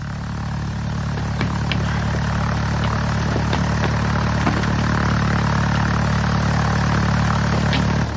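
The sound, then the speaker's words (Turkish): A running engine holds a steady, unbroken low drone with a constant hum and a light rattling layer above it, staying at the same loudness from start to finish. “motoru durdurma.”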